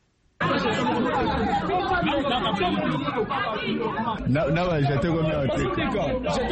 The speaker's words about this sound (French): Ces bruits ne proviennent pas du marché Gambela, c'est l'ambiance qui a régné ce dimanche au centre d'enrôlement à Listandolo.